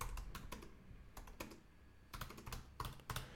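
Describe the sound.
Typing on a computer keyboard: faint, irregular bursts of crisp keystrokes with short pauses between runs of clicks, and no voices.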